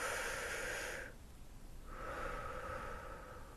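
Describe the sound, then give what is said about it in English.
A deep breath heard as two long, soft rushes of air with a short quiet pause between them. It is faint, with no talk. “Let's take a deep breath to relax.”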